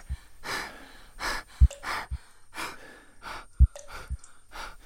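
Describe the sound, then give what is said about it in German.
Deep, exaggerated breaths in a guided breathing exercise: loud, airy rushes of inhale and exhale repeat in a steady series with short pauses, and a few soft low thumps fall between them. “Wir beginnen mit tiefen und übertriebenen Atemzügen.”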